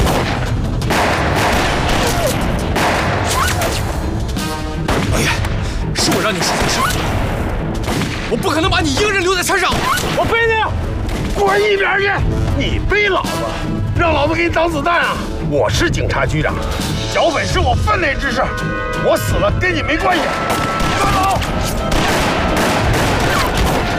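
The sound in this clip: Gunfire in a battle on a mountainside, with sustained volleys and heavy booms running loud and nearly continuous for the whole clip, while men's voices shout over the shooting.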